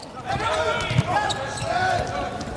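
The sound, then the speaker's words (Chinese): A single sharp hit as the German team's attacker serves in a volleyball match, a brief impact heard under continuous talk and a steady crowd background. “66号德国队的主攻手勒尔斯率先来发球， 上来球发就很凶啊。”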